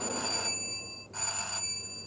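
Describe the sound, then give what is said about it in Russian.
An electric doorbell rings twice in an apartment building stairwell: two sustained, high, buzzing bell tones separated by a short pause, with no voices. “Сашка бежит вперед, подбегает к одной из дверей, прыгает, пытаясь дотянуться до кнопки звонка. Подходит Толя, звонит.”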